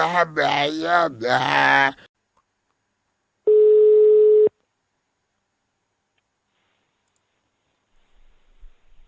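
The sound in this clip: A telephone tone sounds while a call is being placed: a single steady, buzzing tone about a second long, preceded by a brief voice and followed by silence.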